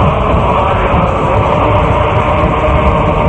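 Passenger train rolling through the night along a path lined with dense, misty trees: a steady, loud rumble of wheels and carriages that holds at an even level throughout, with no distinct clacks standing out.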